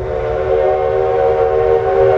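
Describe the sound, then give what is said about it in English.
Steam whistle of a restored 19th-century steam locomotive running through the mountains between Durango and Silverton, Colorado. A steady, sustained, layered tone holds over a low rumble, with no voices. “The train is a restored 19th century steam locomotive that chugs through the mountains between Durango and Silverton, Colorado.”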